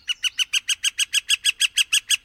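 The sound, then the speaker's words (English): A northern flicker woodpecker calls in a rapid, evenly spaced series of over a dozen bright, sharp notes, each a clear, fairly high-pitched yelp, repeated at a steady rhythm with no voices. “Our most commonly seen woodpeckers are northern flickers, beautiful tan birds with brightly colored underwings, spotted belly, barred back, and bold black breastplate.”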